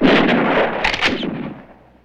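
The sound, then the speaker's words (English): Rifle gunfire as opposing factions trade shots: a dense, loud burst of cracks and booms with a few sharper reports standing out, then a rolling tail that fades away. “The opposing factions trade shots.”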